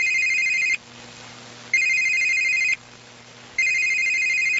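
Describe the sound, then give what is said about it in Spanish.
Telephone ringing heard on the line during a call: three evenly spaced, bright electronic ring bursts separated by short silences, steady and clear. “al ministro Gaviria, Alejandro Gaviria, en una llamada. Escuchemos.”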